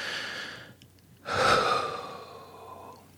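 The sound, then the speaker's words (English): Deep breathing, soft and airy: a quieter breath, a brief pause, then a fuller, louder deep breath that swells and gradually trails away. “To begin with, tap on the side of your hand, take a nice big deep breath.”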